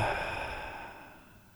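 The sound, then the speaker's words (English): A deep exhale taken during a guided breathing exercise, a single soft, breathy release of air that gradually fades away. “Now do it again on the count of three. One, two, three. And exhale.”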